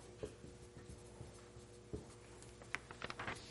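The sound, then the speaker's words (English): Words written by hand with a pen: faint scratching strokes and light taps in an irregular rhythm, with short bursts of quicker scribbling toward the end. “So at the top, I'm going to write fulfillment, and down here, I'm going to write the opposite of that”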